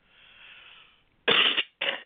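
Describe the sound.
Two sharp coughs from a person, the first longer and louder, the second shorter, after a soft, faint breathy hiss.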